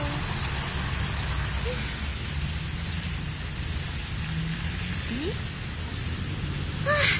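Steady rain falls without a break, a dense, even hiss that holds at the same moderate level from start to finish.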